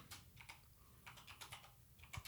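Rapid typing on a computer keyboard: many irregular clicking keystrokes in short bursts with brief pauses, fairly soft and steady, with no talking.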